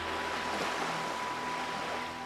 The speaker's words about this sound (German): höre ich das Rauschen des Meeres,